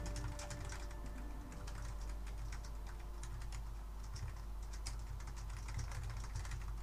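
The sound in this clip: Rapid typing on a computer keyboard, a continuous run of many light, crisp key clicks at an even pace over a steady low hum.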